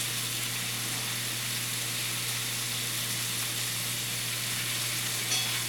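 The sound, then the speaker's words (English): Bacon sizzling as it cooks, a dense, even hiss that holds steady the whole time over a faint low hum, with no voices. “If you're wondering what the sound is, that's the sound of bacon being cooked.”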